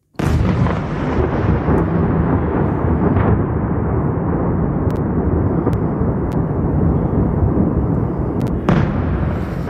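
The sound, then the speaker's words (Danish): Russian attacks on Kyiv at night produce a loud, continuous roar of rumbling blasts that holds steady throughout, with a sharper burst flaring near the end. “Ja, det her er lyden af russiske angreb på Kiev natten til onsdag.”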